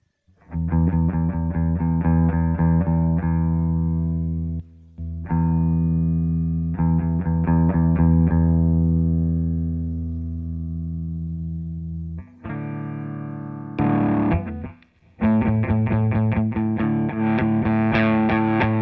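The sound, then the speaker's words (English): Electric guitar played through a Beetronics Royal Jelly pedal at full overdrive rings out in loud, sustained distorted chords with a few short breaks, then choppier stabbed chords before the ringing chords return. “So I'll put it on the full overdrive here, get our overdrive sound, but not go too far, assuming that the fuzz is actually going to be the most overdriven thing in the scene.”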